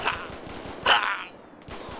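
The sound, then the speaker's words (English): Gunshots ring out in a police video game as a few sharp, noisy bursts spaced irregularly across a couple of seconds, with low background rumble between them. “I missed so many shots.”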